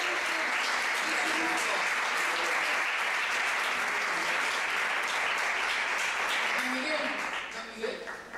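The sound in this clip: Sustained crowd applause at a school ceremony as a group is welcomed: thick, even clapping that stays loud for most of the stretch, then thins out and fades over the final second.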